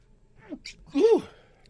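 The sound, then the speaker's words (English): A single sharp, voiced sneeze bursts out loudly after a brief intake of breath and then fades quickly. “Who sneezes five times? I got you. Six times. Who sneezes?”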